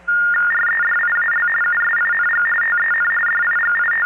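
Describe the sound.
Telephone tones from a 5ESS telephone switch: a steady electronic tone with a second, higher tone pulsing on and off over it, above a constant low hum.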